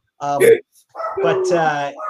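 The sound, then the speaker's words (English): A small 10-pound rat terrier barks in two bright, harmonic vocal bursts: a short one, then a brief gap, then a longer drawn-out one, fairly loud and clear against a quiet background. “you might hear my dog barking. I have a 10 pound rat terrier that thinks he owns the neighborhood.”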